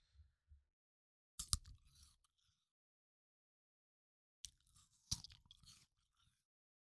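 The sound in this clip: Crunchy chewing of chocolate in close ASMR style, with two small clicks first and then two separate bursts of crisp crunching and mouth sounds, each lasting under a second or two and separated by silence.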